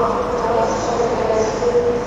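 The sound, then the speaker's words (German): Ambience of Frankfurt's main railway station: a steady, dense wash of hall and rail noise with indistinct crowd murmur, holding an even level throughout without distinct individual events. “Warte mal kurz, damit wir uns das hier auch richtig gut vorstellen können, hole ich uns mal so ein kleines bisschen Frankfurter Bahnhofsstimmung ins Studio.”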